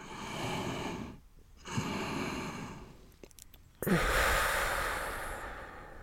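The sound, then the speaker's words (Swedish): Slow, deliberate breathing in through the nose and out again, heard as three soft, airy breath sounds separated by brief pauses. The final breath is the fullest and loudest. “Så kan du en till in genom näsan. Upp i bröst. Precis, och bara släpper ut andetaget så mycket som möjligt på vägen ut.”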